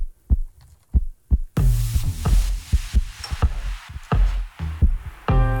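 A woman's heartbeat as low, dull thumps in a steady, fairly quick rhythm. A few beats sound nearly alone before a broad hissing noise rises underneath and continues while the pulses keep going.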